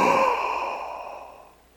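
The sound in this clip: A voice imitates a gasp with a single breathy, voiced rush of air that starts strong and slowly fades away over nearly two seconds.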